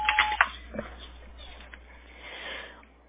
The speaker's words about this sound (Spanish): At the tone, please record your message. When you have finished recording, you may hang up or press 1 for more options.